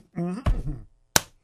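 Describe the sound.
A single sharp open-hand slap to the face lands during a slap match, a crisp, loud smack that follows a moment of talk and then quickly dies away.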